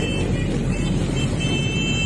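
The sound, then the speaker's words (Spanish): Engines of dozens of motorcycles riding together along a street and up onto the sidewalks in Punta Carretas near Parque Rodó, a loud, dense, unbroken rumble of motor noise with no pauses. “Arriba de veredas, cualquier cosa arriba de las veredas anda. Decenas de motos juntas.”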